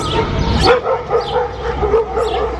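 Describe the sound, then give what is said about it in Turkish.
An injured dog, said to have been hurt in an accident, yelps and whimpers in a loud, unbroken string of high, wavering whines and short yips. “En çarpıcı örneklerden biri Ruset adlı köpek.”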